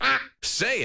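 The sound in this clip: A single short, nasal duck quack, fairly loud, then a brief silence before a person speaks.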